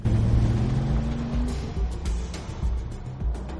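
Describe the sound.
Car engines of a black Porsche followed by a red BMW driving past. A low, steady engine drone edges slightly upward in pitch early on, then settles into a rougher, uneven rumble.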